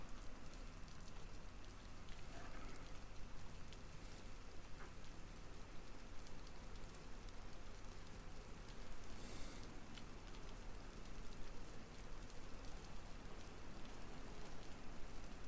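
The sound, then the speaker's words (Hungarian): Rain falls in a steady, even hiss that stays quiet and unbroken throughout, with no pauses and no voices. “Kezdett esni az eső.”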